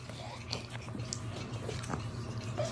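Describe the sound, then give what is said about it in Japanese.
Someone eats a rice ball (onigiri), with quiet, soft biting and moist chewing sounds repeating over a low steady hum. “今からおにぎりを食べます。”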